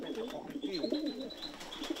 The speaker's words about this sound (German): Warum ist diese Taube für dich besonders?